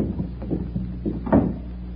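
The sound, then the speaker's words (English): A door opening onto a garden: a few soft knocks and low thuds, then a short, louder scrape near the end. “This door leads to the garden. Now, follow me.”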